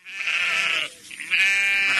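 Sheep bleating on a Pulaski County farm that keeps a flock of ewes: two long, quavering, nasal bleats, the second louder and held to the end.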